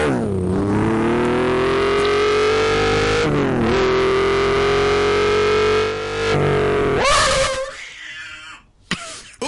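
A Porsche sports car engine revving, giving a loud, sustained roar that holds steady with brief dips in pitch, then surges once more before trailing off.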